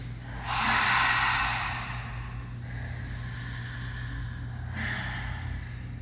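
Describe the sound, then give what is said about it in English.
Deep breathing during an exercise routine: slow, airy breaths in and out through the mouth, swelling and fading softly over a faint low background hum. “Take a deep inhale and through the mouth, let it go. Two more times, inhale.”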